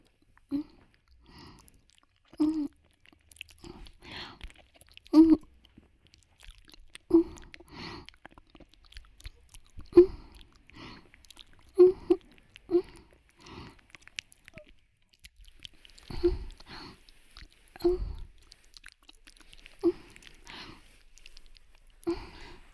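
Close, wet chewing of food in someone's mouth: many irregular bites, crunches and moist smacks in an uneven rhythm, with no talking over it.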